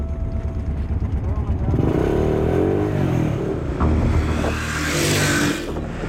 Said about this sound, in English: Din ko ye motorcycle chalti nahi hai, tyre iska kamzor ho jate hain dhoop pe. Raat ka safar hame acha bhi lagta hai aur jaldi bhi ho jata hai.